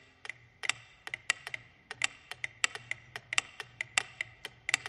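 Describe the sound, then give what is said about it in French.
A mechanical clock ticks in a quick run of crisp, faint clicks at a fairly regular pace, heard on their own. “Henri Bergson prit l'exemple de l'horloge mécanique.”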